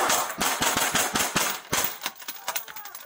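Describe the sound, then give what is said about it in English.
Rapid gunfire in police video footage: many sharp, loud cracks fire in quick, uneven succession over a constant noisy background. “So you hear that first shot.”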